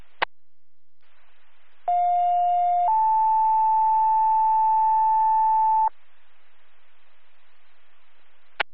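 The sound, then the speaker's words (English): EMS radio dispatch alert tones sound as a two-tone page: a steady lower tone for about a second, then a slightly higher tone held for about three seconds. Faint radio hiss surrounds them, with sharp squelch clicks at the start and end. “EMS, second tones.”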